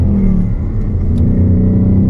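Engine revving from a Ford Mustang Bullitt with a naturally aspirated V8: a loud, deep rumble with a throaty low tone, briefly dipping and then climbing slightly in pitch as the revs rise.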